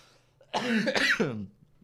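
Throat clearing: one harsh, rasping burst of a couple of forceful pushes lasting about a second, fairly loud and alone, with no talk around it.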